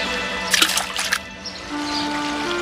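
Water splashes as a bunch of mice are pushed into a river. A short, bright burst of splashing churns for under a second, then settles into a quieter, steady watery background.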